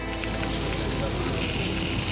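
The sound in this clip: Hot oil sizzles as rice sausage and lamb lung are stir-fried in a wok with Sichuan peppercorns and chili peppers, a dense, steady hiss and crackle with no break.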